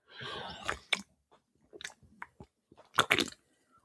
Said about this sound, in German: Und bevor die Show hier startet, muss auch ich erstmal einen Schluck nehmen. Ich habe nämlich Brand wie eine Bergziege.